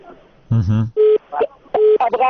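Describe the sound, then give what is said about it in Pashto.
A telephone call-in line drops and gives a line tone: two short, steady, mid-pitched beeps, with a brief voice sound before them and between them. “ستاسو ټلیفون قطع شو.”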